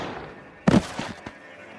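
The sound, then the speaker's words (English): A single gunshot fired from the shadows near a porch, heard as one sharp, loud crack followed by a short, fading rumble. “When from the shadows, a single shot explodes.”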